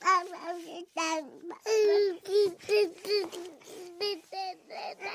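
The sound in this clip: Baby babbling in a long string of voiced, sing-song syllables, bright and melodic with shifting pitch. The sounds rise and fall in loudness and are heard alone, without adult talk.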